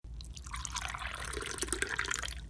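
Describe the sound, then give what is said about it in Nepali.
Water is poured into a glass of lukewarm water: a faint, steady trickling and splashing that grows a little busier and more irregular toward the end. “खै, एक गिलास मन तातो पानी।”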